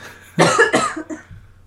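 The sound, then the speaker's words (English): A person coughs: two harsh, loud bursts in quick succession, followed by a few fainter throaty sounds, heard alone with no talk. “Also, I'm about to cough, so just give me a second.”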